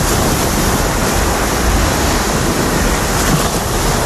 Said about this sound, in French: Le bruit de la mer et du ramassage donc des déchets sur la plage de la réserve de Boguillot